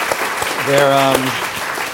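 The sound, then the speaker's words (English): Applause from an audience for panelists after a discussion, a steady wash of clapping that stays fairly loud throughout, with a voice speaking briefly over it. “I want to give them a round of applause for being here.”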